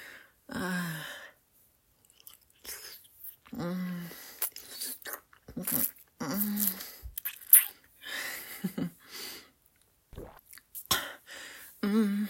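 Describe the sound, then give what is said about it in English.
Wet chewing and mouth smacking come from someone eating cake, scattered irregularly and interspersed with soft murmured vocal sounds. “Yummy. Now that was one yummy, yummy cake.”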